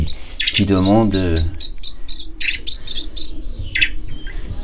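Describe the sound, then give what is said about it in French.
A nearly featherless starling chick chirps inside a small incubator, giving loud, rapid, high-pitched cheeps in quick repeated bursts over a steady mechanical hum. “on a un petit étourneau qui est arrivé ici quasiment sans plumes et qui est en train de grossir. Donc lui, il est dans une petite couveuse, on l'entend”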